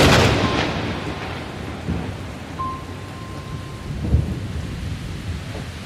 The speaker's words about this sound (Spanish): Esa noche llovió muchísimo.